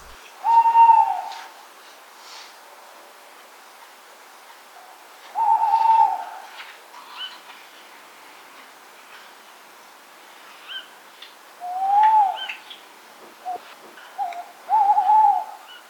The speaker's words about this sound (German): Das war ein Waldkauz. Also am Anfang hat man einen typischen Ruf vom Waldkauz-Männchen gehört und danach dieses quiekende Komm mit, wenn man viel Fantasie reinbringt, das ist der Ruf vom Weibchen gewesen.